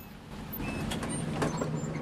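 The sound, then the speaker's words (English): A dog-catcher's van pulls up and parks, its engine giving a steady low rumble with faint mechanical hiss throughout, fairly quiet, with no voices. “parks the dog van in front of him.”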